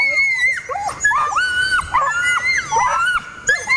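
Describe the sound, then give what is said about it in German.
A Toller dog gives its typical scream, a very loud, shrill cry that warbles up and down in pitch. Many piercing wails and yelps repeat in quick succession with only short breaks. “Dann haben die sogenannten Tollerschrei und der ist eben sehr laut, sehr schrill, geht gefühlt durch Mark und Bein.”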